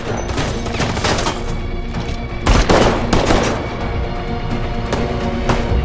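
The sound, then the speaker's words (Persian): Automatic weapon gunfire outside a bank: loud, dense, continuous crackling bursts of shots with a few sharper peaks, filling the whole stretch without pause. “یه نفر با اسلحه اتوماتیک بیرون بانک ملی تیراندازی میکنه.”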